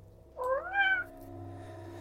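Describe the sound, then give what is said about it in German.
A single short, faint cat meow from a film scene rises and then dips, followed by a low, steady hum. “Man sieht, wie der Pfeil die Katze penetriert und das Tier durch die Wucht der einschlagenden Energie umfällt.”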